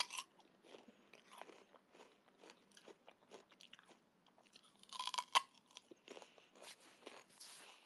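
Biting and chewing a peach: many moist, crunchy bites and chews in an uneven rhythm, mostly soft, with a louder burst of crunching near the middle and no talking.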